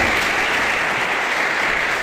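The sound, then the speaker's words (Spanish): Applause at a ceremony honoring award recipients: dense, continuous clapping from a crowd, steady and loud from start to finish with no talk over it. “Un acto lleno de felicitaciones y también aplausos.”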